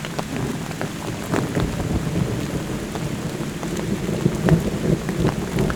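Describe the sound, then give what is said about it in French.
Steady rain falls throughout, with low, distant thunder rumbling underneath, a continuous wash of patter and rumble with no voices. “et le tonnerre qui s'éloigne.”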